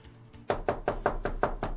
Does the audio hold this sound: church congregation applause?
no